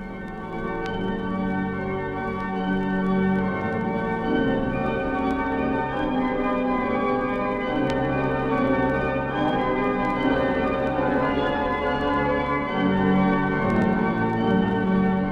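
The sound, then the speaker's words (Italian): Church bells ring at a Friuli shrine in a dense, continuous wash of overlapping metallic tones. The sound stays loud and steady throughout, with no voices. “Suonano le campane e nell'interno dei templi risponde l'organo, che scandisce con i suoi suoni gravi e maestosi i palpiti della speranza e dell'amore del popolo.”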